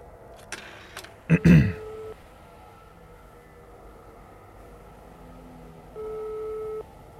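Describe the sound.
Telephone line sounds while a call is placed: a few clicks and a crackling burst, then a short low tone, faint beeps, and a steady buzzing ring tone near the end.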